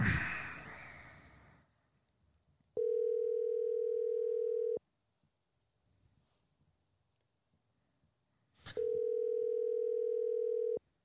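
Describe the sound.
Telephone tone heard while placing a call: two steady, unbroken mid-pitched tones of about two seconds each, separated by a long silence. A soft breathy noise comes before the first tone.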